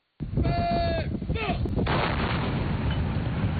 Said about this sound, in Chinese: 榴弹炮分队发射照明弹照亮目标区域，各班组迅速选用适配弹种对不同目标开火